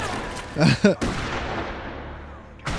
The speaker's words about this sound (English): Big shotgun. He's trying to get blood from a stone. He's just wasting ammunition left and right.